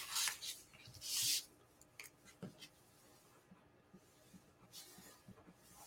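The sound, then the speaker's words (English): Pen scribbling on paper as someone writes down a football team's 12-4 record: a few short, scratchy bursts of writing, then fainter scratches and small taps. No one speaks. “12-4 last year. Let me write that down.”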